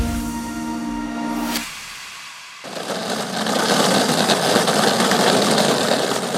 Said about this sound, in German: Das hier ist ein Skateboard, bzw. ein Typ auf einem Skateboard, der auf dem Bauch liegend die Straße entlang fährt